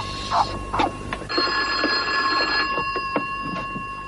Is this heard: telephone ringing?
yes